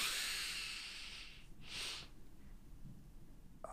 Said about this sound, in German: lege ich mich hin und atme tief ein und so tief wie ich kann und schnapp danach noch am Ende sogar nach Luft